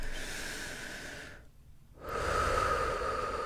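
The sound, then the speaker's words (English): Deep breathing, drawn as a long, rough airy breath, a brief quiet gap, then another fuller breath, steady and fairly loud with no talking. “Deep breaths.”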